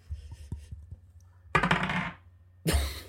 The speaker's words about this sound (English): Ladies and gentlemen of Victoria's World, I just rolled a one.